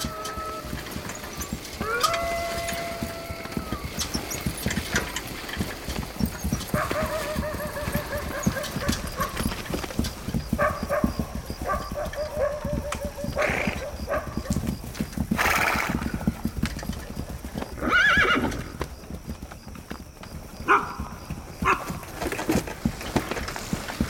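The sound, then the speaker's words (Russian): Horse hooves clip-clop in a steady walking rhythm as a horse tows a broken motorcycle on a rope across the steppe at night. A horse whinnies at points over the continuous hoofbeats. “Привязав веревкой к лошади поломанный мотоцикл, мужчина с мальчиком едут по ночной степи.”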